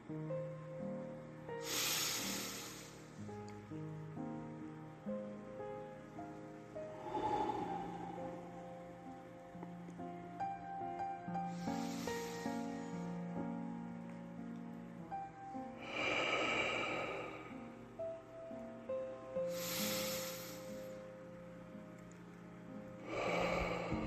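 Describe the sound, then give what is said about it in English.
Nasal breaths as a person inhales slowly through the nose, several soft airy bursts spaced a few seconds apart over steady background music. “Focus for me. Breathe in through the nose again.”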